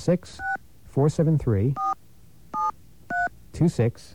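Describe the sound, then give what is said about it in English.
Telephone keypad dialing tones: four short, crisp two-pitch beeps spaced apart, with bursts of talking in the gaps between them. “Let me grab another dial tone here.”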